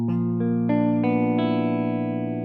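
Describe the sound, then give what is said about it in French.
A guitar chord that includes open strings is arpeggiated from the lowest string to the highest. Each note enters about a third of a second after the last and keeps ringing, so the chord builds into a full, sustained sound. “Je vous invite également à arpéger l'accord du grave à l'aigu pour bien entendre”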